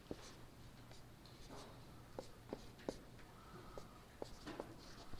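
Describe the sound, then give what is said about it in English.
A timeline drawn by hand with a pen, heard as very faint scratching strokes and small taps at an irregular pace over a low, steady hum. “Sometimes what you want to do when you're doing a timeline like this, I'm going to just draw a timeline here.”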